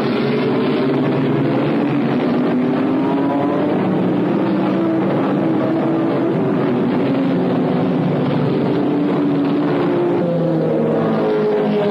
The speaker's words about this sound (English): Ronnie Bucknam, driving the number 57 Ford Mark II, leads the pack off the starting grid.